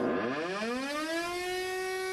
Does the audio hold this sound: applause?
no

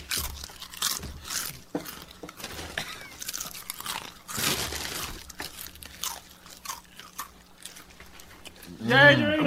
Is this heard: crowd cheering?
no

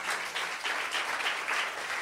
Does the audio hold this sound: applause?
yes

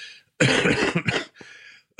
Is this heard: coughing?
yes

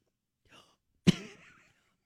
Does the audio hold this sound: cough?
yes

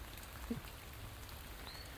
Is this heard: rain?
yes

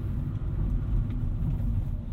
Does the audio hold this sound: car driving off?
yes

